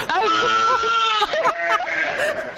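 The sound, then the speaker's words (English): A Dorset Horn lamb bleats in a few wavering, nasal cries, loud and tremulous, with people talking nearby. “It's a Dorset Horn lamb, and these are a breed of sheep that lamb at very early.”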